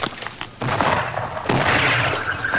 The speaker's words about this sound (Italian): qui a Cadice, mentre ancora tuonano i cannoni